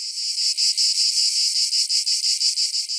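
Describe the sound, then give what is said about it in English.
Insects chirp in the Amazon jungle, a steady high-pitched trill pulsing in a fast, even rhythm of many beats, loud and alone with no voices. “It's the Amazon jungle, which is in South America. It's so big and it covers 8 countries and is a home to over 2.5 million species of insects.”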